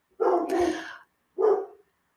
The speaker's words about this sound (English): You might hear my dog barking in the background. Literally on cue.